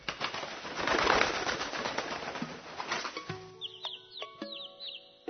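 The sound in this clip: Bird sounds: a rush of flapping wings comes first, followed by several short, high chirping calls that repeat in quick bursts.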